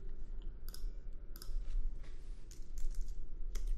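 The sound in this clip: Typing on a computer keyboard: a few scattered, sharp key clicks and short bursts of keystrokes over a low, steady background hum.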